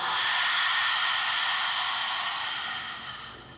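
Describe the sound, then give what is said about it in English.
A long, open-mouthed exhale during a guided breathing exercise: a steady breathy hiss that holds and then gradually fades away, with no speech. “Take a big breath in. Open mouth, exhale.”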